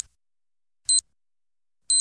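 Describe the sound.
Two short, bright electronic beeps about a second apart, a radio time signal marking the hour of 18:00 on an Albanian music station. Each pip is crisp and high-pitched against silence.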